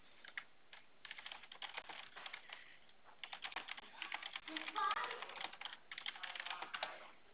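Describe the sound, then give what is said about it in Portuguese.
Typing a WhatsApp message: faint, rapid, irregular key taps in quick bursts that continue for about seven seconds. “Eu vou digitar para você lá no seu WhatsApp. Acho que vai ficar melhor para você ver como é que é o nome. Vou digitar os dois já,”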